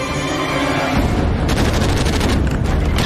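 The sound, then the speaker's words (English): Gunfire in a film shootout between a wounded driver and a SWAT team at a boathouse: heavy low booms open, then a dense, rapid stream of sharp shots crackles steadily to the end. “Driver shoots. SWAT team takes cover, driver limps to a computer, executes data protection routine.”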